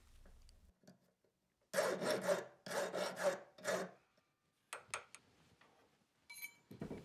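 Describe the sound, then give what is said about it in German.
A hand file rasps away the edge left by forging on a metal ring, giving a few rough, scraping strokes in a quick run, then sparser faint scratches and taps. The sound is quiet throughout, with no talking. “Zwischendurch feilt er die durch das Schmieden entstandene Kante weg.”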